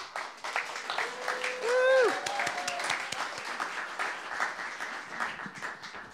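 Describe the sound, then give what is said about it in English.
Applause from an audience welcoming a storyteller at a live storytelling event: many sharp claps form a busy, uneven patter throughout, and a voice rises briefly above the clapping early on. “Hands together for Joanne Hollander.”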